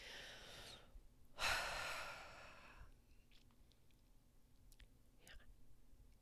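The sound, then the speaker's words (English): One deep human breath, faint and without talk: a soft airy draw, then a louder and longer breathy rush that fades out. “take a deep breath. I'm going to give you a second to do that. I'll do it again with you.”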